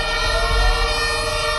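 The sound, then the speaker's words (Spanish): Fire engine siren as trucks arrive to a hotel fire, a steady high tonal wail over a low rumbling engine, loud and continuous with no voices. “Este es el sonido de esa llegada de los bomberos.”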